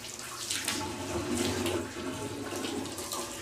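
Water runs steadily from a tap while fingers are washed during Islamic ablution, a constant soft splashing flow with slight surges.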